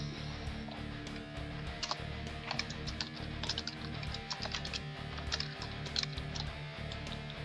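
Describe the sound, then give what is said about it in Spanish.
Typing on a computer keyboard produces many quick, light key clicks in an uneven but continuous patter, fairly faint and with no voices. “Estoy oyendo teclear”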